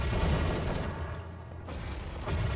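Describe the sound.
Gunfire in a tactical shooter video game: a dense, continuous rattle of shots that eases briefly partway through, then returns at full strength.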